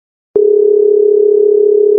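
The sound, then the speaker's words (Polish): A telephone ringing tone sounds while a call is being placed. After a short silence, one steady, unbroken electronic tone holds at a single pitch until the end. “Dzwonię do Aurory.”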